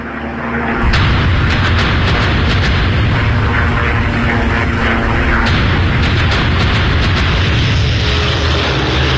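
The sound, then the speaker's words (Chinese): Bombs explode during a large-scale German air raid on French roads, airfields and refineries: a dense, loud, continuous roar of rumbling blasts with many sharp cracking impacts, surging up after a quieter first second and staying intense throughout. “德军就发动了大规模空袭，用以摧毁法国的重要交通要道、机场、炼油厂还有燃料供给地。”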